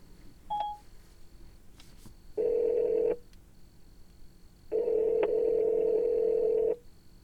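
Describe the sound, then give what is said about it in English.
A phone places a call: a short burst of dialing beeps, then two long, steady ringing tones separated by a pause, with no voices. “Call Kim.”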